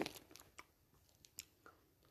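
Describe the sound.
Soft chewing of a marshmallow-flavoured candy taken from a bag, with quiet wet mouth sounds and a few faint crunchy clicks in an irregular rhythm.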